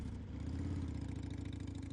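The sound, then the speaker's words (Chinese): A sidecar motorcycle engine runs steadily as the bike is driven, giving a faint, low rumbling chug with rapid, even pulsing and no clear change in pitch. “宋健，开着这辆摩托回茶楼”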